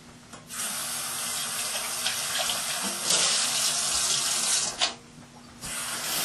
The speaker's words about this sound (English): So I'm gonna rinse out this pot